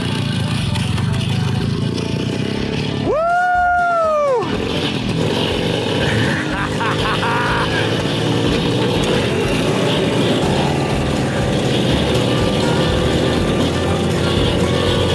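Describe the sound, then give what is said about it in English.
A 1961 Harley motorcycle engine runs as a rider pulls away, producing a loud, continuous rumbling drone that holds steady for the whole stretch without a break. “hopped on that 1961 Harley and rode it like a pro. She didn't even kill it once.”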